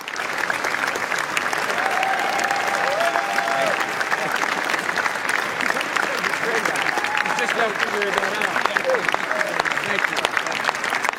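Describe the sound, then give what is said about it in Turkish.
A standing ovation at the Cannes film festival greets the latest film in a famous action series begun in 1996: sustained, dense clapping from a large audience at an even level, with some voices rising over it. “1996'da başlayan meşhur aksiyon serisinin son halkası olan film 5 dakika boyunca ayakta alkışlandı.”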